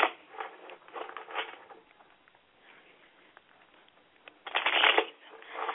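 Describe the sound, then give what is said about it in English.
Tarot cards are shuffled and laid down during a reading: soft, papery riffling and light slaps, mostly faint, with a denser, louder burst of handling near the end. “I'm going to lay the card down again one more time.”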